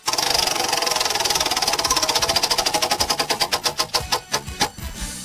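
A prize wheel is spun, its pointer clicking rapidly against the pegs, then slowing to widely spaced ticks before it stops.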